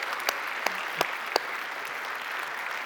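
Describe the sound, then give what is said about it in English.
A church audience applauds the mothers on Mother's Day, a steady wash of clapping from many hands with a few sharper individual claps standing out early on. “And can we just give a hand to all the mamas today? Let's give a hand to all them.”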